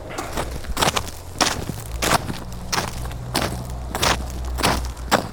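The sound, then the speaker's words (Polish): Footsteps crunch over snow with an icy crust, each step a crisp, crackling crush in a steady walking rhythm, with many steps in a row and no talking. “Dzisiaj na śniegu jest taka warstwa lodu, no. Prawda? Słychać ją.”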